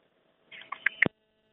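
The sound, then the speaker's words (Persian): Telephone line tones follow a listener's phone-in call being cut off: a few short electronic beeps in quick succession over about half a second, ending in a sharp click before silence. “بله، تماس این شنونده ما متاسفانه قطع شد.”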